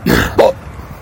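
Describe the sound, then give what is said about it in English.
Two sharp hiccups in quick succession, made by a man: a breathy catch followed by a louder, voiced jolt with a brief tonal squeak, then quiet. “I really got the hiccups.”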